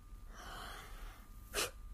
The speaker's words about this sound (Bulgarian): Опитай се пак, поеми дълбоко дъх и си затвори очите.